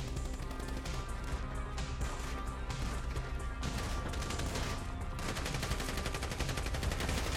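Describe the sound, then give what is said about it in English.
Rapid gunfire in a shooting video game, dense overlapping shots and bursts packed into an unbroken, loud barrage that lasts the whole time. “Oh, you gotta love headshots. Headshots are so much fun.”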